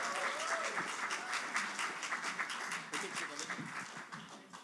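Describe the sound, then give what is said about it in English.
Crowd applause in a church as a woman is welcomed up to speak at a morning service: dense, continuous clapping that holds steady and eases slightly toward the end. “So, hey, why don't you give her a big hand?”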